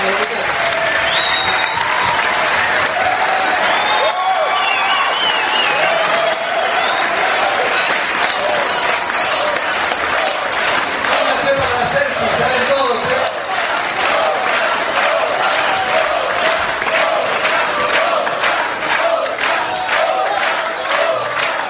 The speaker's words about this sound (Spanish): Esta es nuestra banda, esto es Luchar. Un aplauso.